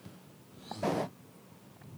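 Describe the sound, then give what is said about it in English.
A single short, wet snort through a nose and throat clogged with mucus, fairly sharp against an otherwise quiet background. “Oh, my mucus in my throat and nose.”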